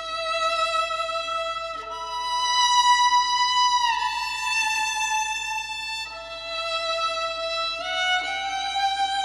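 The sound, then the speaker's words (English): A soaring, high solo violin melody from the end of a tune's string arrangement, heard on its own. It moves through a few long, sustained notes that glide smoothly from one pitch to the next at a steady, moderate loudness. “By the end of the tune, there's a soaring high violin melody, which sounds like this on its own.”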